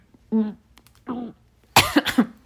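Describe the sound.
A few deliberate coughs with a voiced, throaty edge, separated by short pauses, the last burst louder and broken into two quick hacks.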